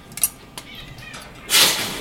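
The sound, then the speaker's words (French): A cat meows once in a textile workshop where jute and white canvas are cut. A couple of faint clicks come first, then a single loud, bright meow near the end. “Il y a un chat aussi dans l'atelier, je vois. Il y a un chat aussi dans l'atelier qui est là pour nous...”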